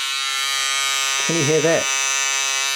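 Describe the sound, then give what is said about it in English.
An electric buzz cutter used for cutting hair runs with a steady, continuous high-pitched buzz throughout, while a voice briefly speaks over it midway. “That is the sound of my buzz cutter.”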